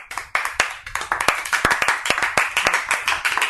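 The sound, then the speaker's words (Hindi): Children clap for a classmate, producing many sharp, distinct hand claps in a loose, fairly steady rhythm with no talking. “तो सारे बच्चे अंशिका के लिए ताली बजाएंगे”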